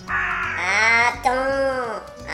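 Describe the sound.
A crow cawing: two long, harsh, drawn-out caws. The first rises and then falls in pitch, and the second slowly falls away.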